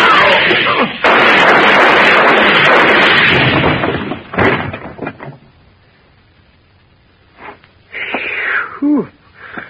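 Gunshots from a gun held against a post: a loud, sustained rushing burst, then a few sharp cracks that quickly fade, followed by a quiet stretch and some brief scattered knocks and noises near the end.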